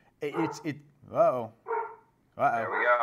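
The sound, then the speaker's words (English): A guard dog barks excitedly in several loud, tonal bursts separated by short pauses. “Dog's going crazy. What's going on, I think? He's a very good guard dog.”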